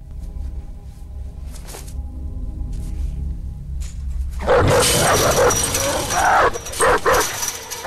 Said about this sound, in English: He is knocked back by a dog leaping up. He scrambles to his feet and runs away. The dog launches itself at him. Two more jump up at the fence.